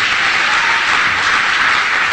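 An audience applauds during a church sermon: loud, dense, continuous clapping that stays even in level from start to finish, with no voice heard above it.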